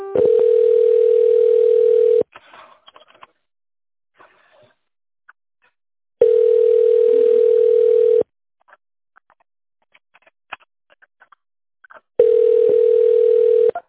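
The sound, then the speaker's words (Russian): Steady telephone line tone heard while on hold during a call to a company: three long, even bursts of a single mid-pitched hum, each about two seconds, separated by longer near-silent gaps. “Оставайтесь на линии, и вам ответит первый освободившийся оператор.”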